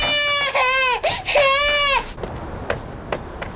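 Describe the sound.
A baby girl cries in loud, high wailing bursts, with a few long harmonic cries in the first half, followed by quieter whimpering and background noise.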